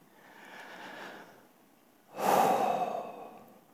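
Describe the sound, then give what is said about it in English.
Deep breathing during a New Year's Eve Sunday service: a soft, airy inhale is followed after a short pause by a louder, longer sighing exhale. “Just breathe that in and breathe that out this morning.”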